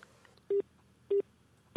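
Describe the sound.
Telephone keypad tones as a phone number is dialed: three short, evenly spaced beeps, clear and alone, with no voices.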